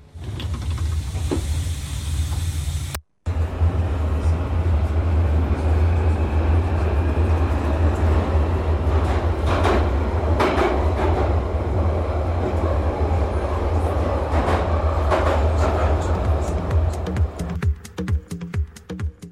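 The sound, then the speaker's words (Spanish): An underground metro train arriving at its last stop: a loud, continuous low rumble under a steady hiss. It runs for many seconds, with scattered clanks and squeals and a burst of rapid rattling clicks near the end. “Atención viajeros, el tren llega a la última parada.”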